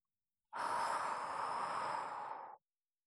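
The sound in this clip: A person breathes slowly in a single long, soft, airy breath lasting about two seconds. It stays steady and gentle, then stops cleanly.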